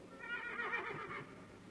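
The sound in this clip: A horse whinnies faintly as its rider dismounts at a monastery at dusk: one brief, wavering neigh of about a second, with no voices.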